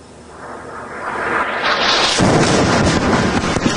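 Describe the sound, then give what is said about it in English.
A missile explodes beside a TV news reporter in southern Lebanon during a night of airstrikes. A whooshing roar builds steadily for about two seconds, then bursts into a loud, sustained blast and rumble. “A TV reporter in Lebanon was injured when a missile exploded as he was about to go on air.”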